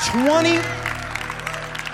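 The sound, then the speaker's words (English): Applause from staff in the room, a steady patter of claps with scattered sharp peaks that follows a brief voice and keeps going at moderate level. “And if you're wondering who's applauding right now, who's in the house, well, we've got some Rock City staff in the room.”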